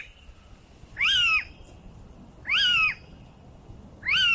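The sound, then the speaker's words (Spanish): A little owl, a nocturnal bird, gives three loud, evenly spaced calls about one and a half seconds apart. Each call is a clear mewing note that rises and then falls in pitch, with no talk. “Este diría que es el mochuelo, ¿no? Es el mochuelo, muy bien, ¿eh? Es como si se lo sabe. Este es un ave nocturna.”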